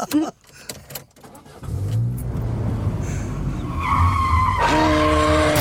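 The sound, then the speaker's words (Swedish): Car driving in a Skoda Fabia headed toward Sveg: a steady roar of engine and road noise that grows a little louder toward the end, where a tonal engine whine comes in. A few soft clicks come first. “Sätter oss i en Skoda Fabia den här gången och kör, kör mot Sveg.”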